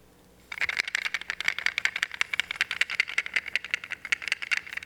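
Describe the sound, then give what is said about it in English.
Loose pieces of a three-part puzzle rattle and clatter as they are shaken together, a rapid run of many sharp irregular clicks that starts after a brief quiet moment and continues to the end. “It takes some real doing to get this puzzle together. And the reason why I like this puzzle is that it's noisy.”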